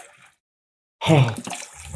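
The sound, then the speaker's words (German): Water poured into a container starts abruptly after a brief silence, a loud splashing rush that eases into a steadier, softer flow. “So, jetzt machen wir mal ein bisschen Wasser hier rein.”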